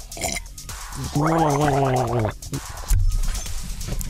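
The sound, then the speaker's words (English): Water being gargled: a throaty, bubbling, buzzy tone held for about a second, with short bursts of noise before and after it. “Time for a celebratory gargle, just for Obama.”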